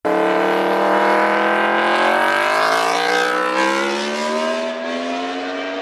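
Loud motorcycle exhaust roars as the engine revs, its harmonic note climbing steadily in pitch for a few seconds, then holding level and easing slightly toward the end, strong and continuous throughout.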